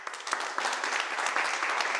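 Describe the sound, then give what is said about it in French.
Applause of a small audience, dense and even hand clapping holding at a steady level with no voices over it. “Ça mérite bien quelques applaudissements.”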